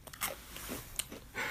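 Spicy cheese crunchies are eaten close up: a few sharp bites and crisp crunches with some chewing between them, over a short moment without talk.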